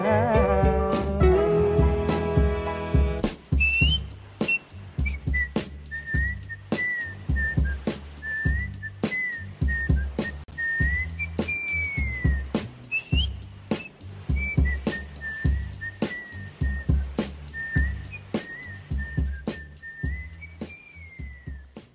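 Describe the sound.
Whistled melody from a recorded song, a clear wavering high tune carried over a steady beat of drum hits and backing instruments, after a short instrumental opening.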